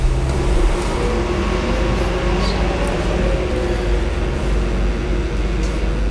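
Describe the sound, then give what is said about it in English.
Buses passing outside produce a heavy, continuous low rumbling roar that stays loud throughout without clear breaks between vehicles. “we're wondering whether the air conditioning's come on, but it hasn't. It's buses, I think, making all that row.”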